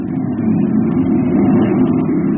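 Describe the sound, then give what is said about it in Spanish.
Steady, loud engine rumble of a sports car driving off toward the docks of Tangier. The low, even drone holds throughout without a sharp rev. “Calimán, en compañía del pequeño Solín, aborda el auto deportivo”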